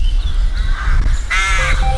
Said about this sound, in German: Richtig, die Krähen sind's. Sie sind erstaunlich intelligent.